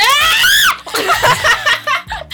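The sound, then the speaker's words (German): A person screams into a microphone during a quiz game: a loud, high, piercing cry lasting under a second, then breaking into short, choppy bursts of laughter. “nicht ins Mikro schreien! Ich wollte buzzern.”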